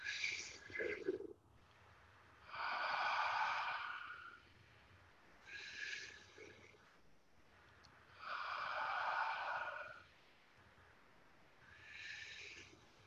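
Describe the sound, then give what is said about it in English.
Slow, deep breaths drawn in and let out during a relaxation exercise: soft, airy rushes that alternate between longer and shorter breaths, with no talking over them. “breathe in real deep all the way down to your toes, and then breathe out and say to yourself, relax. Breathe in.”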